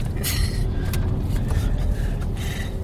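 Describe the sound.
A car being driven on the way to yoga gives off a continuous low rumble of engine and road noise, with faint bits of talk now and then.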